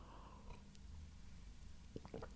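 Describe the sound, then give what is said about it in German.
Someone swallows a sip of a drink. The soft throat and mouth sounds are faint and quiet, with a few small wet clicks and gulps clustered near the end. “Schluckgeräusch”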